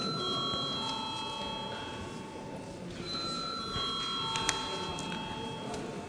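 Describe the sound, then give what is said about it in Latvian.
An electric bell rings to call a vote in the Latvian parliament. It gives steady, sustained metallic tones that hold through the whole clip over a noisy background. “lūdzu zvanu.”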